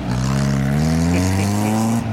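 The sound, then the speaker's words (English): An armored truck's engine starts up and reverses, producing a loud, steady rumbling drone whose pitch creeps gently upward before cutting off abruptly near the end. “Oh, we got to fire up the Brinks truck. Hold on a second here. We're backing it up.”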